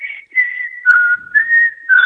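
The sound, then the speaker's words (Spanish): A person whistles a song's chorus: a clear, solo melody of a few long, sustained notes that step between higher and lower pitches, with nothing else audible. “Qué lindo que se escucha. Sí, sí, porque se escucha como un chiflido y un silbido.”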